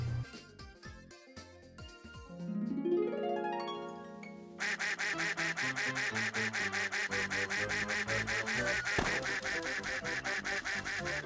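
Duck quacking in a video game where the duck must follow the player: an ascending run of tones leads into a rapid, steady string of loud, regular electronic quacks.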